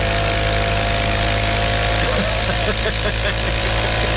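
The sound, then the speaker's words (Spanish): An old motorcycle engine runs with a loud, dense, steady roar that fills the whole stretch without pause. “Es una moto como el tiempo de Cristóbal Colón.”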